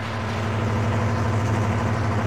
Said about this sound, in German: Wir müssen den Motor ausstellen, sonst hören die Schmuggler, dass wir kommen.